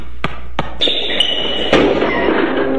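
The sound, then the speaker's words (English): Basketball bouncing during an underhand layup attempt: a couple of sharp, hard impacts, then a lingering high ringing ping and another thud, with no talk. “Let's see if I can still do that underhand layup.”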